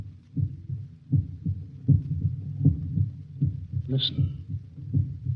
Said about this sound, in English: That sound is the first and last sound in your memory. The pulsating of the human heart.